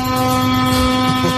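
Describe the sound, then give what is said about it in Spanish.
A truck's air horn blares in one long, unbroken blast on the road from Asturias to Madrid. It holds a loud, steady, buzzy tone with rich overtones for the whole moment, with no pauses or changes in pitch. “Con claxon incluido.”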